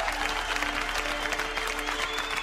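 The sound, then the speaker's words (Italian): Thousands of people crowded around a well applaud at length: a short stretch of dense, even clapping over a steady low hum. “Le migliaia di persone assiepate attorno al pozzo accolgono l'annuncio con un lungo applauso.”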